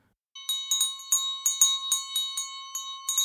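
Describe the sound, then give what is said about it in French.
A small kitchen bell is shaken in a rapid, uneven run of many bright, high-pitched strikes. Each strike rings briefly before the next cuts in, and no voices are heard. “La clochette de la cuisine retentit.”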